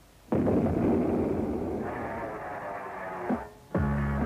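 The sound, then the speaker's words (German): An artillery cannonade used as the recorded opening sound of a 1960 German soldiers' radio station: a dense, sustained roar of overlapping booming fire that holds for about three seconds, then breaks off briefly before another loud burst. “Sie hören die Kanonade des deutschen Soldatensenders.”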